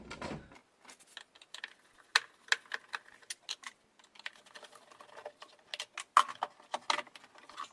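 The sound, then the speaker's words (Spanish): Phillips screws being unscrewed from an air filter housing: a low thump at the start, then many quick, irregular clicks and light ticks of varying loudness, with no voices. “El del aire, el filtro del aire tiene aquí unos tornillos de aquí de estrella. Aquí tiene uno, ahí tiene otro, ¿vale? Lo vamos a quitar.”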